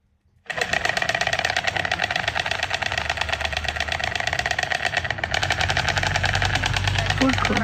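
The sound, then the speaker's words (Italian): Storks clattering and calling in Uznach, in the Canton of St. Gallen, Switzerland: a rapid, steady, machine-like rattle that starts after a brief silence and continues loudly and evenly for about seven seconds. “Questo che rumore è? Che si chiama degli schiamazzi, perché è il verso delle cicogne e con la mia amica Mandy siamo atterrate a Uznach, siamo nel Canton San Gallo ed è la capitale svizzera delle cicogne.”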